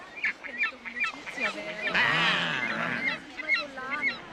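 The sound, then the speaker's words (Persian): A cartoon seagull squawks in a string of harsh, honking calls, with one longer, louder cry in the middle before shorter calls resume. “منظورم این مرغ دریایی نبود.”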